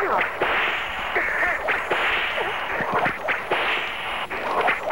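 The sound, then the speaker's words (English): Whip cracks ring out as a rapid series of many sharp, loud snaps over a constant hiss, with no voices. “Who's doing that? Who's the guy with the whip?”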